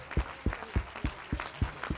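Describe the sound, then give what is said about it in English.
A church audience claps hands during worship, setting a steady, even rhythm of about seven sharp claps in two seconds, kept at a faint level with no voices over them. “Let's clap our hands unto him. Let's bless his name.”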